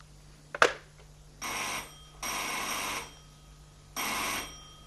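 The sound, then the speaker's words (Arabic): A telephone bell rings in three separate bursts, each about a second long with short pauses between, after a sharp click at the start; fairly loud and heard alone. “وبعدين بقى انا هفضل كل شوية ارد على تليفونات؟ دماغي صدعت من الجرس المبطلش دق ده.”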